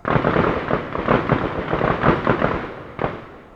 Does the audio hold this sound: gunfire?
yes